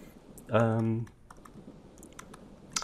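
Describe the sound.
Code is typed on a computer keyboard in scattered light key clicks, with a short voiced hum near the start.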